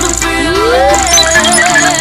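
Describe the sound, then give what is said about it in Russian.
An electronic ringtone signals an incoming phone call: a bright tone glides upward, then steady high electronic tones ring on at a fairly even level. “система зарегистрировала входящий звонок.”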